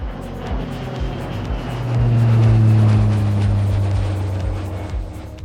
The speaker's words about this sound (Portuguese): Bora de vinheta? Mas antes, veja se a sua mesinha da frente está devidamente presa e aperte os cintos, pois esse jatinho vai decolar.